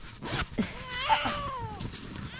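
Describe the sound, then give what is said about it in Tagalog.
A baby cries in a thin, wavering wail that swells in the middle and trails off, fairly faint, over steady background noise. “Boses ng anak ko yung umiiyak, ha? Baka nahulog sa duyan.”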